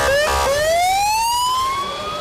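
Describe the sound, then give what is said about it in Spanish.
Sirens wail from a bus convoy in Ukraine welcoming released prisoners of war: one loud, clear tone that steps up briefly, then climbs slowly and steadily in pitch throughout. “También desde Ucrania llega este sonido. Así se ha recibido en Ucrania los 205 prisioneros de guerra entregados por Rusia en las últimas horas, una caravana de autobuses”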